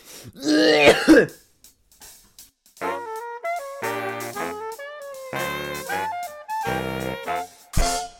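Throat clearing from a person with a cold: one loud, rough, harsh burst of clearing at the start, followed by quieter sound.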